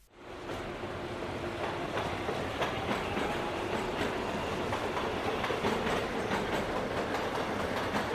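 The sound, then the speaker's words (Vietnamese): A Seoul Line 1 subway train pulls away quickly with a loud, steady rumbling roar, faint rhythmic clickety-clack of wheels running under it throughout. “Đầu tiên là tàu rời đi quá nhanh”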